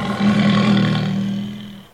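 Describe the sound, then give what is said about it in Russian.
A tiger lets out one loud, deep roar that swells quickly, holds as a rough, throaty growl and fades away over about two seconds, heard alone. “смотри в глаза тигру.”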